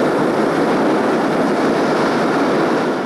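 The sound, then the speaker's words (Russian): A steam locomotive pulls into the railway station at Chiusi beneath the station roof, producing a loud, continuous rumbling hiss that holds steady the whole time. “Гвидо на вокзале в Кьюзи с букетом цветов. Под своды входит локомотив.”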